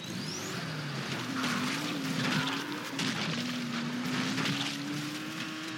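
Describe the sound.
A car engine drones continuously as the car is driven in the video game Dying Light, its pitch wavering slightly up and down at a steady, moderately loud level with no voices.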